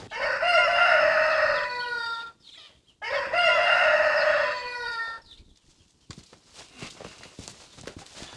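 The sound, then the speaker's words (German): A rooster crows loudly, two long drawn-out calls with a raspy, harmonic tone separated by a short pause, followed by quieter rustling and clicking. “Das ist aber auch so ein Brüllwürfel, dieser Hahn. Meine Zeit, der ist viel lauter als zuletzt.”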